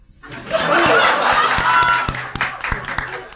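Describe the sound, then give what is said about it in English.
A live audience applauds and cheers to cast a vote, a loud, dense wash of clapping with laughter mixed in that builds quickly, holds, and then thins to scattered claps. “I'm calling upon our live Phoenix audience to make the final decision tonight. If you think Ben and Olga, and therefore John, is in the right, applaud now.”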